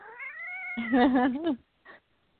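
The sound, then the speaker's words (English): An upset cat meows in a long, drawn-out, wavering yowl that rises and then wobbles as it fades, followed by one short, faint second meow. “Yeah, it's my cat. Are you fighting a tiger? No, he's just upset. He wants what he wants,”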